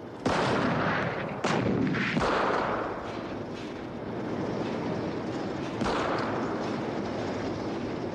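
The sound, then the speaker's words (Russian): Anti-tank guns and tanks firing shells in battle, with shells bursting near trenches: several heavy, sharp blasts stand out over a constant dense roar of gunfire. “Выпущенные танками снаряды рвутся в нескольких десятках метров от окопов. Поднявшаяся бурая пыль ухудшает видимость. Бронебойные расчеты открывают огонь.”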